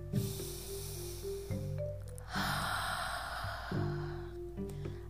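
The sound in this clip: A deep breath taken during a guided affirmation exercise: one long, airy inhale of about a second, heard over steady, soft, sustained music.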